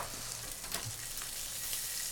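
Kielbasa sizzles as it browns in butter in a pan, a steady, even frying hiss running throughout with light stirring mixed in.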